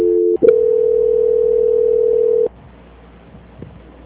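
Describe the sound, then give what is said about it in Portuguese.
A telephone call-transfer tone on a financing call: a short doubled tone, a click, then a loud steady mid-pitched tone holding for about two seconds before cutting to quiet line hiss. “aguarde em linha que estou transferindo a ligação do senhor para o controle de qualidade”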